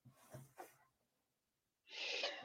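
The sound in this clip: A sneeze bursts out near the end as a short, breathy, hissing blast, preceded by a couple of quick sharp intakes of breath. All of it is fairly faint.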